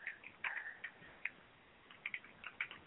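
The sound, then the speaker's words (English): Typing on a computer keyboard gives light, irregular key clicks in small bursts. The clicks pause briefly midway, then resume in quick clusters. They are faint, and no voices are heard. “And I'm typing and I can't talk at the same time.”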